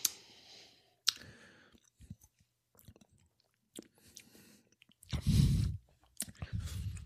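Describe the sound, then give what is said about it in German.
Someone drinks a Gaffel Sonnenhopfen beer, making faint mouth clicks and soft sipping sounds, then a louder slurping gulp and a swallow. Quiet pauses fall between the sips, and no one talks. “Also ich trinke jetzt auch mal.”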